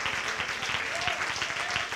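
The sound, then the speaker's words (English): A church audience clapping hands in praise: a brief burst of many overlapping hand claps forms a dense, fairly faint patter, mixed with voices from the crowd. “Why don't you give the Lord a hand clap of praise before you take your seats?”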